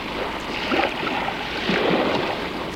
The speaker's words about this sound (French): La mer est agitée.